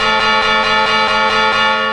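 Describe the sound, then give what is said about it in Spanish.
A carillon chimes the quarters ahead of the New Year bells, with many bright, evenly spaced metallic strikes over a sustained, ringing harmonic tone at steady loudness. “¡Van a llegar el momento a las campanadas! ¡El carrillón, el carrillón!”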